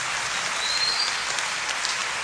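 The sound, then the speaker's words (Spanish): Church audience applauding, a dense, even clapping that holds steady at a moderate level from start to finish. “¿Se quiere aplaudir? Sí.”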